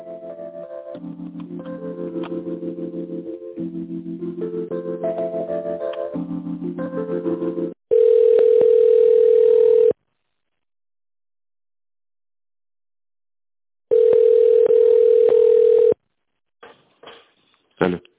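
Telephone line tones while a call is put through to another department: two long, loud, steady single-pitch tones, each about two seconds, separated by silence, followed by a few short clicks on the line.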